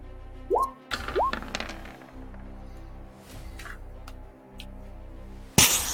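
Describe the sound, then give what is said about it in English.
A mace smashes through ice in a video game, ending in one loud, sharp crash near the end. Before it come a few short, rising, plopping effects over a steady low hum. “You can see that the ice is like underneath of you. Okay, she's going to attack it with her mace again.”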